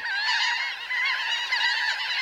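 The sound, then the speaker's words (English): Laughing gulls calling: a dense run of nasal, harmonic honking cries that overlap continuously at a steady, fairly loud level, with no pauses. “Some gulls, like these laughing gulls, and also the Bonaparte's gull, add dapper black or brown hoods for the breeding season.”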